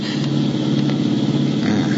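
A car engine runs with a steady low drone while the car is being driven; its motor has started to misfire and is thought to have a fuel problem. The tone stays constant, with no audible stutter.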